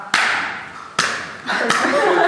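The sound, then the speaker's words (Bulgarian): Open-hand slaps with the whole flat palm land on the back between the shoulder blades during a massage: three sharp, loud smacks, each followed by a brief rustling tail. “И не се бие с юмрук, никога. Бие се с цяла ръка, така.”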